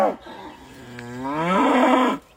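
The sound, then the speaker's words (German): An emaciated cow that has broken out of its pasture and wanders a farm track gives a single loud, drawn-out moo that swells and holds strongly before cutting off, with no other sounds around it. “Eine abgemagerte Kuh. Sie ist aus der Weide ausgebrochen und irrt auf einem Feldweg umher. Wieder und wieder reckt sie den Kopf schreiend gen Himmel.”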